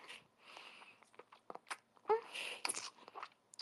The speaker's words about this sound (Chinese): 好喜欢吃蛋鸡堡